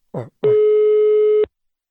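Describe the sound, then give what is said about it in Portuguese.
Telephone ringback tone on an outgoing mobile phone call: one loud, steady electronic tone lasting about a second, cut off cleanly. A brief short burst comes just before it. “ligar pra Wanda. Vou perguntar se ela quer trocar o smartphone dela.”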